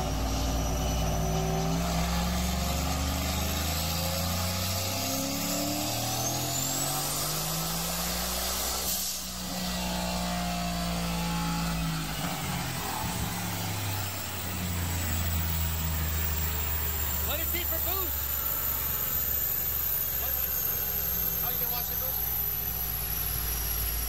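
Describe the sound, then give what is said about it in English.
A turbocharged truck engine, its turbo mounted back in the bed and making about 1,000 horsepower, roars under load with a loud hissing rush. Its pitch climbs, drops back near the middle, then climbs again beneath a high whistle. “It's the turbo's way back here in the bed. Listen to this sucker make 1,000 horsepower.”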